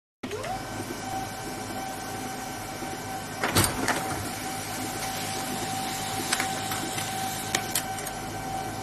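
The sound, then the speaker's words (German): A printer prints a letter, giving a steady mechanical whirring drone with a sustained hum, broken by one sharp knock and a few lighter clicks partway through. “wir können das Ganze mal ausdrucken.”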